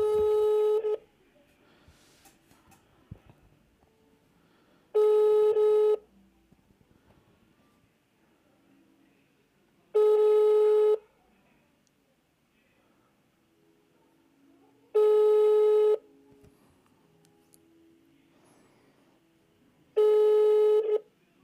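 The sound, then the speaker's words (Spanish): A telephone ringback tone on an outgoing call: five steady, even rings, each about a second long and spaced roughly five seconds apart, with faint low background noise between them. “Entonces la voy a felicitar por llamada. Vamos a ver.”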